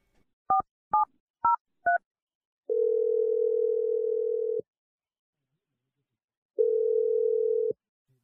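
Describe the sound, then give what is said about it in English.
A telephone dials a number with four short electronic tone beeps, then two long, steady, low ringing tones separated by a pause of silence. “Only way is to call her and ask, so let's just do this. Here we go. I'm going to dial her number right now.”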